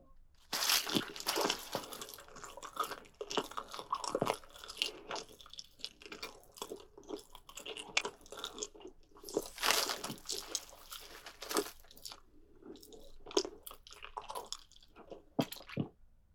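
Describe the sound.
Chewing of chicken thigh meat heard close up: many wet, squishy bites and soft crunches in an irregular rhythm with brief pauses, fairly quiet overall.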